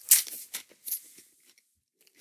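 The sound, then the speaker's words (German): Dry, slightly stale crispbread crunches as it is bitten and eaten. Three sharp, bright crunches come close together, followed by a few fainter crumbly ticks and near silence. “Knäckebrot während einer laufenden Aufnahme essen.”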